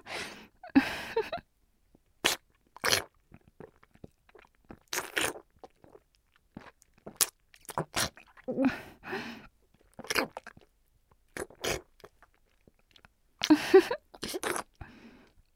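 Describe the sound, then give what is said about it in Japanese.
Crunchy bites and chewing of food, many sharp crackling bites in irregular bursts separated by short pauses, close and fairly quiet. “もっと気になって食べちゃう。食べてるとこ見せてあげる。”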